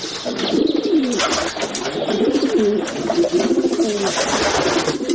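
Green pigeons cooing inside derelict, looted workshop buildings: steady, overlapping low rolling coos that carry on throughout, fairly loud, with no voices.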